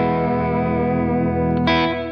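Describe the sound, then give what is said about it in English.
Electric guitar with heavy reverb and vibrato, a PRS with dual 5708 humbuckers (1957 PAF style), coil split and tremolo: a sustained chord rings with a slight wavering shimmer, then a fresh strum near the end before the tone fades. “And I got a lot of reverb going right now, but that's vibrato.”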